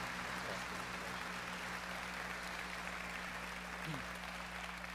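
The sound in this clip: Audience applause welcoming a speaker at a leadership gathering in Tulsa, Oklahoma. The clapping is a continuous, even wash of sound over a steady low hum.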